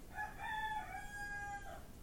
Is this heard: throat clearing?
no